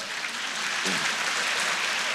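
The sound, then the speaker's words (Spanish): Crowd applause at a religious gathering: dense, steady clapping that holds at an even loudness for the whole stretch, with no voices over it. “Dar un aplauso al Señor por eso.”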